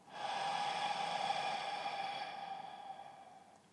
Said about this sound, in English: Gently close your eyes and just take a nice deep breath in through your nose and out through the mouth.